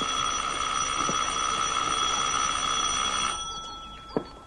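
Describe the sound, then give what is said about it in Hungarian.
An electric bell rings in a steady, shrill trill for about three seconds, then cuts off, followed by a single faint click. “Ez mi? Csengő.”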